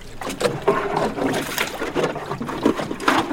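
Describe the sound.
Water is bailed out of a small boat with irregular splashing, scooping and pouring sounds running throughout. No one talks over it.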